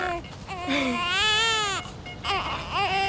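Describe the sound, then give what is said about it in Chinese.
An infant cries in loud, high-pitched wails that rise and fall, with short catches of breath between the bursts. The crying goes on throughout. “不哭了不哭了啊，妈妈忙完就过来找你了啊。”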